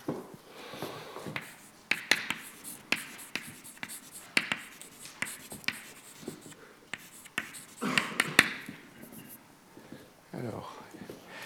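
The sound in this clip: Handwriting as equations are written out during a French-language physics lecture: many short scratchy strokes and taps in irregular bursts, fairly faint, with a voice talking underneath.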